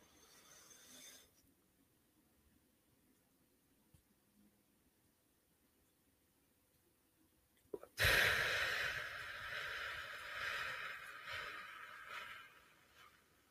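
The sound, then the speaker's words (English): Diaphragm breathing exercise with a held breath and a long exhale: about eight seconds of near silence, then a sudden loud, airy rush of breath that tapers off over roughly five seconds. “We're going to breathe in for four, hold for seven, and out for eight. So, and again, I'm going to breathe into my diaphragm.”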